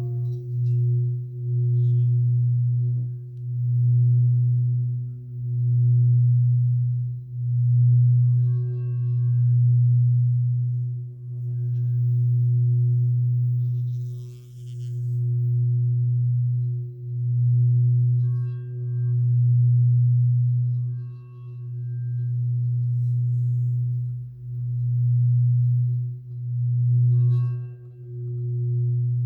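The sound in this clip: A deep, continuous drone comes from a heavy anchoring singing bowl of nearly two kilos as its rim is rubbed in circles. It swells and dips in a regular rhythm about every two seconds, with faint higher overtones flickering above.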